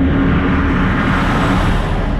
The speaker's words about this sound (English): Heavy trucks hauling all sorts of materials rumble down the rural roads surrounding Intel's New Albany site.